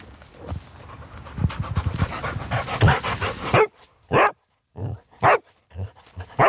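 A detection dog barks to signal a scent it has found in rocky ground. A stretch of panting and rustling comes first, then a series of sharp, loud barks with brief silences between them.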